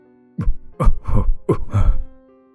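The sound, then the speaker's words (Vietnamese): A gravely ill old man gives a run of several rough, hoarse coughs in quick succession, each a harsh throaty burst, loud over a faint steady tone in the background. “Vừa nói, ông cụ vừa ho lên những tiếng ho dài. Những cơn ho cứ như không muốn dừng lại.”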